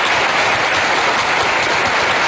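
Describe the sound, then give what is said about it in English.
Steady crowd applause, a dense, continuous wash of clapping at even loudness throughout, with no talk over it. “I think that deserves a round of applause.”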